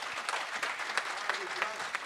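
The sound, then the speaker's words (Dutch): Audience applause at an afternoon book presentation, a dense, steady wash of many hands clapping with scattered sharper claps, moderately quiet and continuous throughout. “Applaus nog een keer”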